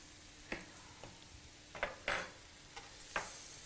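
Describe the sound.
Fish pieces frying in a pan for a Hyderabad-style fish fry, a faint steady sizzle broken by a few sharp clinks and taps as pieces are moved, with no talk.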